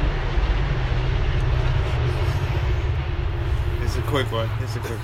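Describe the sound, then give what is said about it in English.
A train runs past, heard as a steady, broad low rumble and roar that fills the whole stretch without a clear beginning or end, with voices faintly over it. “There's a train that runs by pretty frequently. Totally forgot about that.”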